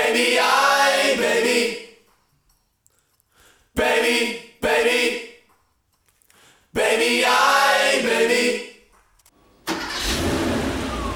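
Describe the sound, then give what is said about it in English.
A Porsche 911 engine starting up: several loud bursts of revving with a tone that sweeps downward, separated by short gaps, before the engine settles into a steady, rough rumble. “So this is the sound of a Porsche 911 starting up.”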